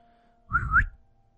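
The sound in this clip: A man whistles as a signal to his accomplices: a single short whistle lasting about half a second, wavering slightly in pitch and lifting at the end, heard alone against near silence.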